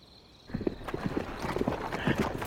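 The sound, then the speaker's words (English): Hooves of a column of horses ridden hard clip-clop in a quick, steady stream of many hoofbeats, beginning after a brief quiet lead-in and continuing at an even, fairly loud level. “The column rode hard for 2 hours before it reached the area of the Garrett farm. Willie Jed told them to slow down.”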